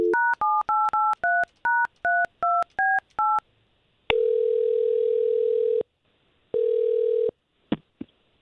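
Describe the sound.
A telephone dials a number from a radio station, with a fast series of about ten touch-tone beeps at varied pitches, then two long steady ringing tones and a final click.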